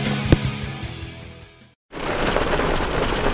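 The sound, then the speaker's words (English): Hail strikes Hardie fiber cement siding in a dense, steady rattling patter with one sharper hit early on. The noise fades, cuts to a brief silence, then resumes just as thick. “What you're hearing is Hardy Fiber Cement Siding living up to its reputation as the siding that handles hail impact with ease.”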